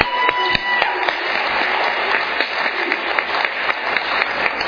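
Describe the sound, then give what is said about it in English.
An audience at a Valley Group meeting applauds to welcome a speaker. The clapping is loud and dense and holds steady, without a break, from start to finish. “So let's give him a warm Valley Group welcome.”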